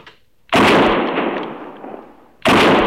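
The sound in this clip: A gunshot brings down an antelope: a sharp, loud report that trails into a long, roaring decay, followed about two seconds later by a second abrupt blast.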